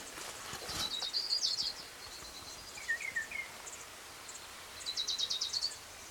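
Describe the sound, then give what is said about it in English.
Orange-crowned warbler song: two bright, rapid high trills, each lasting under a second, with a few short, faint chirps between them over a low background hiss. “Here's orange crowned warbler number two.”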